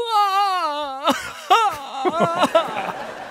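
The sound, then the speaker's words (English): A voice imitates a man wailing and sobbing: a long, quavering moan runs for about a second, then breaks into uneven, gasping sobs in short bursts. “standing there is Jalpert, just sobbing, and not in like a romantic, cute way. Oh, he's like kind of wailing.”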